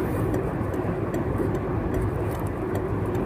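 A car drives along and takes a right turn. Its engine and road noise form a dense, steady low rumble at fairly high level, with no distinct separate events and no speech.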